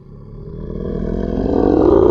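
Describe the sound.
A bear growling, a rough, low rumbling noise that steadily swells louder over about two seconds.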